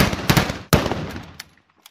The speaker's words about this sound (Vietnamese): Tiếng súng nổ ra lần đầu.